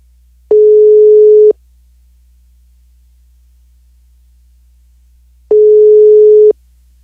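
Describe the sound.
Ringback tone of an outgoing telephone call: two identical steady mid-pitched beeps, each about one second long, separated by roughly four seconds of silence, over a faint low hum.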